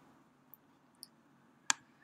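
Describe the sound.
A computer mouse clicks on a blog's share button. Three small, crisp clicks sound in a quiet room-tone hush, the first two faint and the last noticeably sharper and louder.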